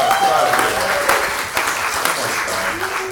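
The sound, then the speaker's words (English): Audience applause at a church gathering just before a sermon: dense, steady clapping that runs without a break, with voices mixed in. “One more round of applause for”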